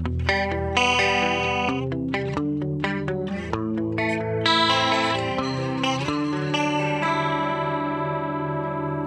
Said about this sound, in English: Some very common effects include the chorus effect, which kind of doubles up and fattens the tone.